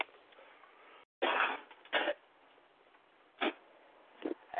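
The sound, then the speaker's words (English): Four harsh, dry coughs break out one at a time, separated by pauses, over a steady low hiss. “I had to cough all the way through that fucking thing.”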